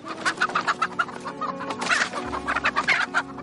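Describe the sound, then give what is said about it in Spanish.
Hens cluck busily as they are shooed off a wooden plank covering a well, several birds squawking and clucking loudly and continuously without pause. “Espanta a las gallinas que hay sobre la tabla que tapa el pozo.”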